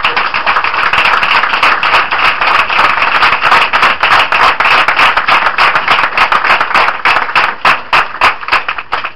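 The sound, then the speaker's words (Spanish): Congregation applause during a church service: loud, dense clapping from many hands that fills the whole clip and turns into more distinct, rhythmic individual claps toward the end. “Démosle aplausos a Jesús.”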